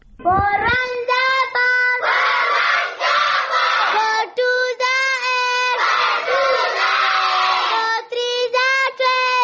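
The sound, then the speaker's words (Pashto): Schoolchildren at a community school in Mohmand shout and chant together in loud unison, a crowd of young voices calling out rhythmic phrases separated by short breaths and pauses. “نور تفصیل شانواز تر زیرا کوي چې د زده کوونکو په غږونو پیلېږي.”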